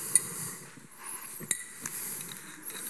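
Light glass clinks come from a glass bottle being handled: a few faint, sharp taps over a quiet background.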